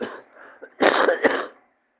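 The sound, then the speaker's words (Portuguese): A chesty cough from someone with asthma, wheezing and nodules pressing on the trachea: a soft breathy rasp, then a loud harsh burst of a few rough pulses that fades quickly. “Tá vendo a tosse? Vem do pulmão.”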